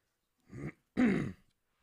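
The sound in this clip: Throat clearing in two short, rough rasps separated by a brief silence. The second rasp is louder and longer, and nothing else is heard.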